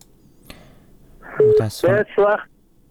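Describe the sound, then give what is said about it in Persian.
Telephone tones sound as a caller's line drops during a radio call-in show. Three short, loud electronic bursts come in quick succession after a faint click, over low line hiss. “تلفونشان قطع شد”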